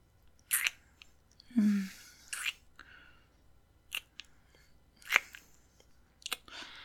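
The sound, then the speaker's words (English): Soft, wet kissing and lip-smacking noises come in several irregular bursts. They are faint and intimate, with quiet gaps between them. “I'm moving closer to you so I can kiss you. Stop. It's okay. Don't be nervous. Let me just have a taste of your lips.”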